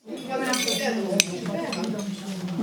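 Plates and cutlery clinking as each diner takes a plate of vegetables at a shared meal. There is a steady, light clatter of dishes with one sharp clink partway through.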